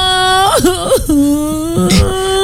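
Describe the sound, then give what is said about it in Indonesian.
A child whimpers and cries in a high, wavering voice, the pitch quivering up and down in shaky sobbing catches, loud and continuous. “Adek, nangis kenapa?”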